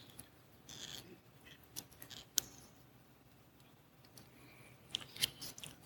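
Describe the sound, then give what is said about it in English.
Faint crinkly peeling as the cover is pulled back from a communion juice cup, with a few soft crackles and sharp ticks scattered over a quiet background. “You'll turn it over. We'll peel back the cover for the juice.”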